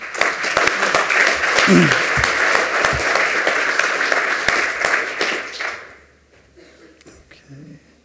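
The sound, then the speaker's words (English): Audience applause after a lightning talk at a technical session: a loud, dense burst of clapping that holds steady for about six seconds, then drops sharply to quiet, where a voice briefly comes through. “But give him a round of applause.”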